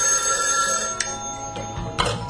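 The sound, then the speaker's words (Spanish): Telephone ringing with an incoming call, a steady, insistent bell ring that sounds throughout with a couple of sharper pulses. “Por cierto, casi se me olvida, bueno, con una llamadita lo solucionamos.”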